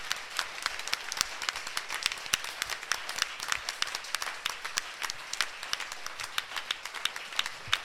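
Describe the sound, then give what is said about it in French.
Faint clapping from an audience acclaiming the Lord in a French-language worship service, with many sharp, separate claps at a fairly regular pace rather than a dense roar. “Est-ce qu'on peut acclamer fortement le Seigneur”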